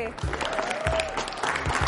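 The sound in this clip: Applause from a group of guys in a hall welcoming a tall football player, a steady wash of clapping that runs the whole time while a man's voice talks over it.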